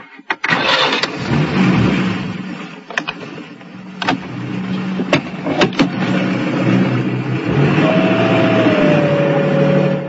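A car's engine starts and pulls away: a few sharp clunks and clicks over a rough mid-pitched engine rumble that settles into a steady, even drone.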